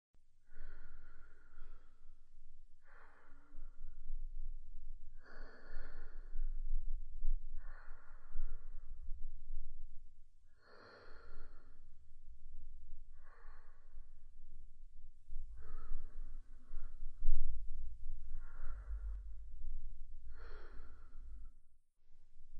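Slow, deep breathing during a guided relaxation: many long, airy inhales and exhales spaced a few seconds apart, moderately loud over a low rumble, with no talk.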